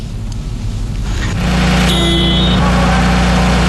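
A heavy truck's diesel engine cranks and fires during a heavy-vehicle repair skills competition, jumping into a loud, steady low rumble that keeps idling, with a brief higher whine riding over it shortly after it catches.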